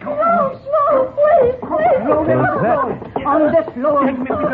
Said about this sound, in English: Listen to her sob, my own daughter, torn from my own flesh.